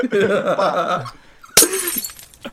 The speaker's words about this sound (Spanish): A ver cómo le he buscado un sonido a eso. No. Pues de botella rota, tírala contra el suelo, porque no vale para nada eso.